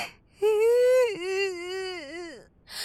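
A young woman cries over heartbreak, letting out one long, drawn-out wailing sob that holds steady, breaks briefly, then trails off with a falling pitch before quiet returns.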